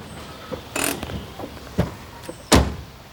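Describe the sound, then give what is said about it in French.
A car arriving on a village square, then passengers getting out: a few mechanical clicks and door clunks over a low background, with the loudest thud near the end and no voices. “La voiture des Lemoine arrive sur la place du village. Bernard et Corinne en descendent.”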